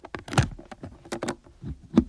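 A key is worked in the lock of a box, making quiet metallic jingles, sharp clicks and scraping rattles in an uneven series of small bursts.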